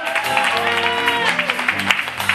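Audience applause for special guests at an evening show, a steady wash of clapping that holds at an even level throughout.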